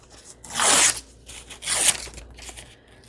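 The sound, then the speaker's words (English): A paper page torn to size by hand: two bright, rasping rips, each lasting about half a second, separated by a brief pause, followed by faint rustling. “Well, since you're right on here, I'll just tear you to size.”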